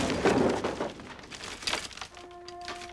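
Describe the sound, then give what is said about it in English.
A floor collapses after a flea bomb is fired, giving a few loud breaking and crashing bursts that rise and fade, then settle into a quiet stretch with faint sustained tones. “The barrel points to the flea bomb. Fire! The floor blackens and falls out.”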